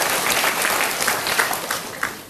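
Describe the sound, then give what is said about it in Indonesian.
A studio audience applauds a guest on a motivational talk show, a steady wash of many hands clapping, with a few sharper individual claps standing out toward the end. “Tepuk tangan untuk Ibu Dina.”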